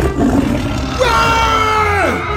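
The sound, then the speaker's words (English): A tiger roars in one long, rough, harmonic growl that swells in the middle and slides down in pitch toward the end, loud over a steady background noise. “Is that tiger supposed to be out?”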